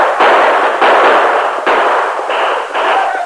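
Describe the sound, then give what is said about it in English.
Gunfire from a posse shooting down at outlaws: several loud shots in quick succession that blur into a continuous noisy roar, with no talk. “Ride around them. Keep firing down at them.”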